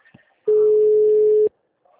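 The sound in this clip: An unanswered telephone call gives a ringback tone, one steady mid-pitched beep lasting about a second between stretches of near silence.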